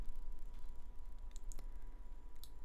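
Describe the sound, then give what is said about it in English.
Faint computer mouse clicks while adding an entry to an online vision board, a few short, crisp ticks over a low steady hum. “Let's see if I can actually type today. Click.”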